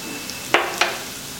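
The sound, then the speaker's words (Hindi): Chopped ginger and garlic fry in a pan with a constant bright sizzle. Two short scraping bursts from stirring stand out, and no voices are heard. “और ये कटी हुई अदरक, दोनों को एक minute तक पका लेंगे अदरक लहसुन को,”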